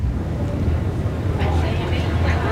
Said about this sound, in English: All right, so here we are on the ferry.